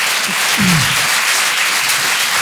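An audience at a live show applauds loudly after being asked to make noise for mothers. The dense, even clapping holds steady for the whole stretch without any pause.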